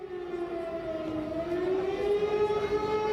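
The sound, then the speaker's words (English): An air raid siren set off by protesters beside the parliament building in Magdeburg, eastern Germany, drones as one sustained, fairly faint wailing tone that dips slightly in pitch, then rises and swells a little. “If you can hear an air raid siren going off in the background, it's because there are activists where I am, next to the Parliament building”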